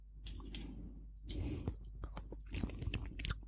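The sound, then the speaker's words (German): Wet chewing and soft smacking from someone tasting homemade baba ganoush made with sesame paste. Irregular clicks and light crunches come in uneven bursts, with no speech. “So, und jetzt probieren wir es mal. Mal abschmecken.”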